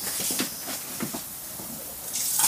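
Hands being washed under a running tap: a steady, soft hiss of flowing water with faint splashes, growing slightly louder toward the end.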